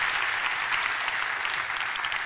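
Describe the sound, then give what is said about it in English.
Applause from an audience welcoming guests: a brief, steady burst of clapping at even loudness throughout, with no voices over it. “Give them a little warm round of applause.”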